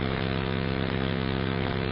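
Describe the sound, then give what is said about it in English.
Engine noise from a passing vehicle: a steady, low droning hum with strong harmonics that holds at an even loudness throughout. “You can see a vehicle every now and then go by.”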